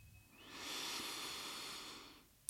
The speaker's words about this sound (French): Prends ensemble une grande dernière inspiration par le nez pour ouvrir grand la cage thoracique.